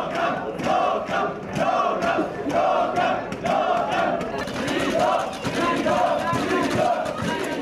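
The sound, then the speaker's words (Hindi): Migrants on a train chant protest slogans together. The loud, rhythmic crowd chanting repeats the same phrases steadily throughout, with no pauses. “Train में बैठे ये यात्री लगातार नारे लगाकर विरोध कर रहे हैं। उनका कहना है कि उन्हें कैंप में न रखा जाए, उन्हें आजाद रखा जाए।”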